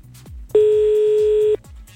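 A telephone tone sounds while a call is dialed to a wrong number, one loud, even beep of about a second over a regular low thumping pulse.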